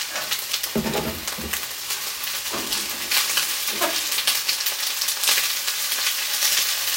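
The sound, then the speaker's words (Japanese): Pre-cut vegetables stir-frying in sesame oil give a steady, loud sizzle throughout, with brief bursts of stirring and scraping rising above the hiss. No one speaks. “野菜炒めってさ、ほんと単純に美味しいよね。もうカット野菜でやってるんで超一瞬です。”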